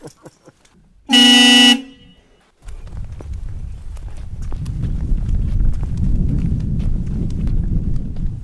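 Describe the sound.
A car horn sounds in one loud, sustained blast, then cuts off and gives way to a steady low rumbling noise.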